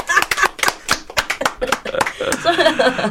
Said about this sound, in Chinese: 我要拍手